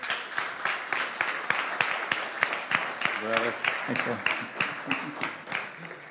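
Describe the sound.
Congregation applause welcoming a guest speaker at a church that was converted from a tire shop: many sharp, rhythmic claps, with a voice partway through.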